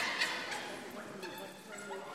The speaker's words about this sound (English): I love this dog already.